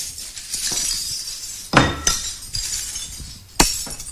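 Crockery being smashed in a smash room, with loud crashes of breaking ceramic and glassy clinking. Three sharp, heavy impacts stand out, separated by lighter rattling and tinkling of shards.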